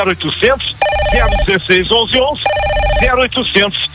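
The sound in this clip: Telephone ringing, two bursts of steady electronic ring tones sounding beneath continuous talk, loud and bright against the voices.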